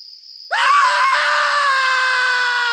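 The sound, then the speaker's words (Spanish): A bloodcurdling scream rings out at night near an old house, following a thin, steady high tone. The cry is a long, loud, sustained wail that holds its pitch without a break until the end. “¿Qué ha sido ese grito escalofriante?”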